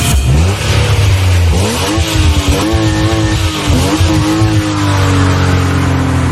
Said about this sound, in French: c'est une voiture qui accélère, une voiture de sport